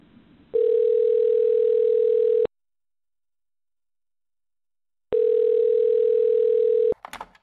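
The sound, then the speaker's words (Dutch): Telephone tones sound while a call is being placed: two long, steady, mid-pitched beeps separated by a few seconds of silence. “Oké, okay, dan gaan we even naar hem bellen.”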